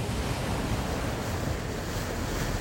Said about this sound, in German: Schwarze, gold, rot und silber gefütterte Wellen krachen gegen das Schiff.